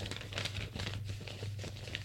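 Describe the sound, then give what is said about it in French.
Soft crinkling rustle of paper being crumpled and slipped into a pocket, faint and continuous for about two seconds over a low steady hum. “Il met le papier dans sa poche”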